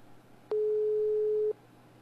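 A telephone ringback tone plays while a call is being placed: one steady mid-pitched beep lasting about a second, then quiet over faint background hiss.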